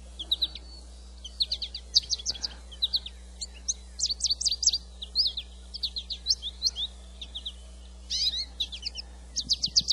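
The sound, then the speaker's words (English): Birds sing and chirp in many quick, high-pitched bursts of varied calls, with a short lull partway through and a faint steady low hum underneath. “And so, even the birds enjoy Shabbat.”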